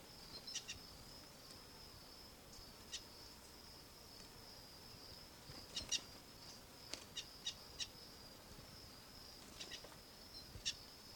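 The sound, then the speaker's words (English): A wild bird gives faint, short chirps that repeat irregularly over a steady high-pitched drone. “Wild bird in the background.”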